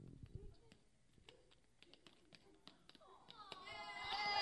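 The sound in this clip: Tap dancing from a girl in a pink tutu at a talent showcase: many sharp, quick taps in an uneven rhythm, followed by rising cheers and voices at the end.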